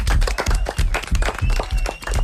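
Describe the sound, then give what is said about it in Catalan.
Loud applause rewards a contestant in a quiz-style group game. Quick, crisp claps pile into a brisk, uneven patter with brief dips. “Molt bé, fort aplaudiment.”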